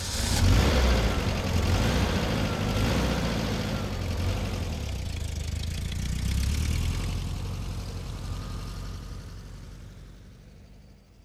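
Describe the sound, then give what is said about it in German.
A car engine runs as the car is parked in a corner spot: a steady, rumbling idle with a slight swell midway, fading away at the end. “Wenn ich Sie nur bitten dürfte, Ihren Wagen so wie immer in der Ecke dort zu parken.”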